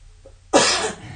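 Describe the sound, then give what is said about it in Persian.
A single cough in the background, a sudden harsh burst that fades out slowly over a low, steady hum. “یه سرفه پیش زمینه.”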